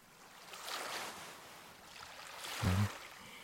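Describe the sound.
Ocean waves wash onto a beach: a faint, soft, hissing surf that swells gently twice, with a low thump as the second swell peaks.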